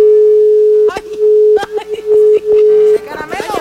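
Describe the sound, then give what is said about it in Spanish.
A steady, single-pitched telephone tone sounds after a call is cut off. It runs alone for about a second, then continues under people talking. “¿Se cortó? Ay, se le cortó. A ver, otra vez.”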